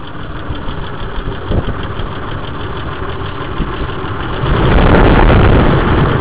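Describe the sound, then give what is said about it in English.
An idling car engine, heard under the hood, keeps up a steady tapping within the loud, continuous engine drone. The engine grows noticeably louder in the last couple of seconds. “You can hear the tapping. I'm going to go under the hood so you can hear it a little bit better.”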